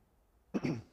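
A person clears their throat once: a short, rough, rasping burst that swells and fades within under half a second, heard alone after near silence.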